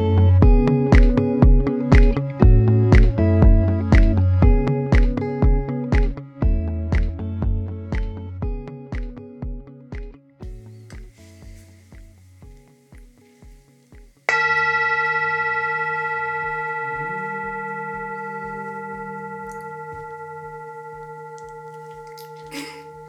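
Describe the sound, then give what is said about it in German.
A singing bowl rings with many rhythmic metallic strikes whose bright overtones gradually fade. One sustained, shimmering tone follows and slowly decays. “Das war der Sound einer Klangschale.”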